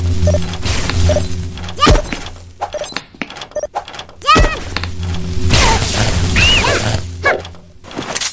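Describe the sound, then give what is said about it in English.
Lamps are smashed in a video game, giving two sharp, loud shattering crashes with heavy thuds among chirpy game effects. A player talks at intervals. “So I think that I actually do have to destroy both of these lamps.”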